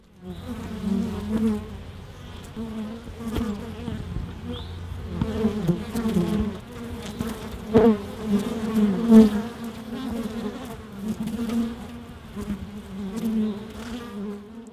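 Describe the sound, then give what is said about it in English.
Many honeybees buzz at their hives at a residence in Blacksburg, Virginia. The low, dense drone runs continuously, its loudness swelling and dipping as individual bees pass close. “You heard sounds from honeybee hives at a residence in Blacksburg, Virginia.”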